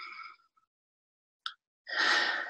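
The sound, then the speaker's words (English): Deep breathing during a guided relaxation exercise: one airy breath at the start, a brief sharp sniff after a silent gap, then a longer, fuller breathy rush at the end, all quiet and with no talking. “I just want to invite everyone to take a couple of deep breaths.”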